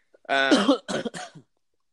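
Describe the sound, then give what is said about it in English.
Harsh coughing from someone who coughs often: a few loud, rasping bursts heard alone with no talk. The first burst is the longest, and two shorter bursts follow it. “I'm always coughing.”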